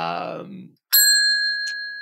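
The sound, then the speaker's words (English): A bell is struck once just after a voice stops, giving a bright, clear ringing tone that sustains and slowly fades for about a second. “Whenever somebody says trade secret, I hit the bell”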